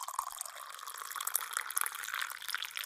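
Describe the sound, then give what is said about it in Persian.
A glass being filled with water: a continuous, faint trickling splash dotted with bright little droplet sounds from start to end. “داشت یک گلاس پر از او میشد. بله، یک گلاس از او پر شد.”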